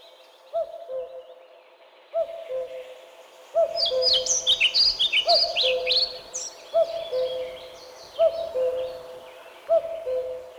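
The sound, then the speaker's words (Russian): A common cuckoo calls its repeated two-note cuckoo phrase at a steady, unhurried pace, while other birds twitter high and fast in the middle. “Слышу! Ку-ку! Ку-ку! Это кукушка!”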